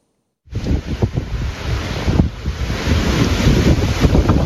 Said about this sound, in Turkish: Kuvvetli rüzgar evlerin çatılarını söktü.